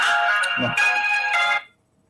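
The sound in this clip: A phone ringtone sounds as a bright electronic tone, steady and fairly loud, with a slight change in its pattern partway through. It cuts off abruptly after about a second and a half, leaving near silence.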